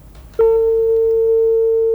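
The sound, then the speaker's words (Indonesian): Steady telephone tone after a caller's line cuts off: a sudden, loud, unbroken mid-pitched hum that sets in after a short, quiet moment and holds to the end. “Duh, terputus. Terputus sambungan teleponnya ya.”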